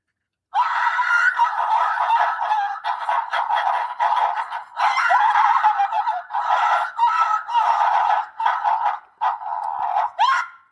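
A bird's fighting call: harsh, raspy squawks in many rapid, overlapping bursts that run almost continuously for about ten seconds, with brief pauses between runs.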